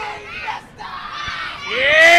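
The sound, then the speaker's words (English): Crowd cheering at a wrestling show: many shouting voices rise and fall, dip briefly, then swell louder toward the end. “Flop House there you go, always seems to draw a crowd like this.”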